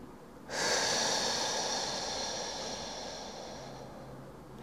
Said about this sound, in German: Durch die Nase ein. Und lässt den Atem durch den Mund hinausfließen. Wieder ein.